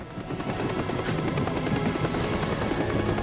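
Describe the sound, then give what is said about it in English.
Helicopter rotor and engine roar as the aircraft lifts off at night above breaking waves, a loud, steady, churning wash of noise with no voices. “The pilot climbs down from the cockpit and the helicopter immediately dusts off.”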